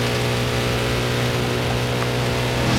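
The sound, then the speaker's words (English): Engine roar of the Munro Special motorcycle tearing along an empty highway, a loud, unbroken drone with a strong low hum that holds steady in pitch and level throughout, with no voices. “Bert's tearing along a stretch of empty highway on the Munro Special. He raises his head briefly above the plastic screen, then hunkers back down as he thunders along the road.”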